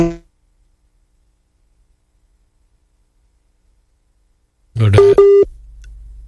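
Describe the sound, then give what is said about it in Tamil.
A call-waiting tone sounds on a telephone line during a call: a short, steady electronic beep with a brief break, right after a short burst of voice and over low line hiss. “தொலைபேசிய அழைப்பு வேறு அழைப்பு ஏதோ உங்களுக்கு வந்து கொண்டிருக்கிறது நினைக்கிறேன்.”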